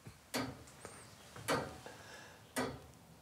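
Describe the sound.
Ticking of a striking clock mechanism: three loud, sharp ticks about a second apart, with fainter clicks and a quiet whirring between them.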